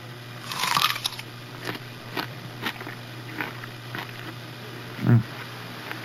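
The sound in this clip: Crisp crunching as teeth bite into an apple: one sharp, bright crunch near the start and another thick bite later, with a few small chewing clicks and crackles scattered between them.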